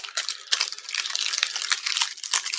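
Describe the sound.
Crinkling plastic wrappers of fruit hard candies, each with an inner and an outer wrapper, being opened: continuous bright, crackly rustling made of many small irregular crackles, with no talk.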